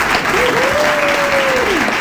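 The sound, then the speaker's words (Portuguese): Applause welcoming a vocal coach at the start of an interview: dense, steady clapping for two seconds, with a thin whistle-like tone rising and falling above it. “Uma salva de palmas!”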